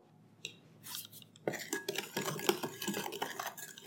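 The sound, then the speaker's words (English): A Dutch whisk stirs dry ingredients into gluten-free jam cake batter. It starts quiet with a few light clicks, then turns into busy, continuous scraping and tapping against the bowl. “We're stirring in the dry ingredients until they're just barely mixed.”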